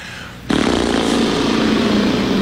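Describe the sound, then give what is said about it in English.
A voice imitates a motorboat with a lip-trill vocal warm-up exercise. After a brief quiet start, a loud, steady buzzing drone begins and holds at an even pitch to the end. “Vocal aerobics. Yeah, you start with a simple motorboat.”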